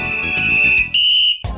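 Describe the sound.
A radio studio beep signalling a host's arrival: a loud, steady, high-pitched electronic tone held for most of a second, a short gap, then a second sustained tone, ending in a brief burst of noise.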